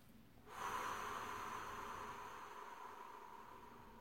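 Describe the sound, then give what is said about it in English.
One slow, controlled breath out starts after about half a second. It holds as a soft, airy hiss for more than three seconds and gradually tapers away. “as you breathe out, so you can control the breath and make it go for a longer period of time. And you want to do that for a minute or two. So if I was to do that again, it'd be like this.”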